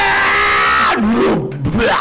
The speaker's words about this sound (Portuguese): Então vocês veem uma sombra tentacular, assim, uns gritos assim.